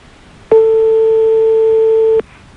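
A telephone ringback tone on a call: one long, steady, mid-pitched beep of under two seconds that starts and stops abruptly over faint background hiss.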